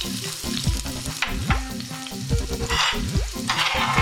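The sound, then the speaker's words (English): A rough-chopped medium onion fries in vegetable oil with a loud, continuous sizzle and crackle, broken by occasional scraping as a utensil stirs the pan. “like to start off with 2 teaspoons of vegetable oil. Then add my rough chopped 1 medium onion.”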